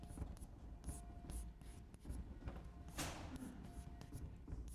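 Faint, scratchy writing on a board during a maths lecture, with many short strokes and light taps as symbols are written, quiet throughout.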